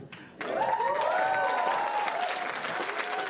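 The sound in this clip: Audience applause after a trick at a live magic comedy show: after a brief quieter moment, clapping breaks out abruptly and continues loud and steady, with voices mixed into the crowd.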